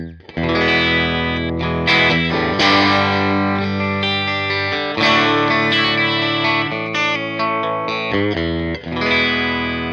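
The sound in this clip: An electric guitar plays on the bridge pickup with a clean tone through an amp with an Alnico speaker. Ringing chords and single notes are struck repeatedly, each attack bright and sustained, forming a continuous, loud passage.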